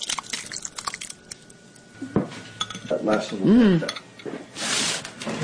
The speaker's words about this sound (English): I thought we would sample some of this this Mountain Shoshone soup. And we're cooking it over a wood fire. And I'm going to serve everybody up.